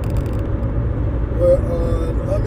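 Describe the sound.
Car engine drone and road rumble while driving: a steady, fairly loud low rumble that swells slightly near the middle and continues without a break.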